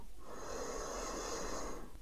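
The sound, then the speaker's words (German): A deep, slow breath is drawn in during a guided meditation. The inhalation is a steady, airy rush that lasts about two seconds at an even loudness, with no talking. “Atme tief ein”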